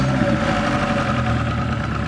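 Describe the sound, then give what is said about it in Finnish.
A car engine idles steadily, a swapped-in unit fitted where the original 1.2 sat, running through a stock exhaust. It makes a low, even rumble with a constant drone and no talk over it. “Pistähän vielä tuo moottori käyntiin. tuo moottori on mahtunut ihan hyvin se 1.2 tilalle.”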